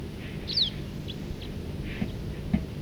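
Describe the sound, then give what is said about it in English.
A siskin gives a single short, high call that sweeps downward, standing out briefly over steady low background noise. “Birds just flying around here now. Stop. It's recording. There's a bird here. Giving loud calls.”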